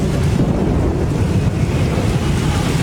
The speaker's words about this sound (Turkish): Kutsal topraklarda yağmur ve fırtına işte böyle kayda geçti.